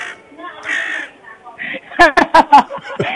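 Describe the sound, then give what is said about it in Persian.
A crow cawing in a rapid run of harsh, loud, clipped calls that follows a couple of seconds of talk. “این صدای قارقار رو صدای من گذاشتی”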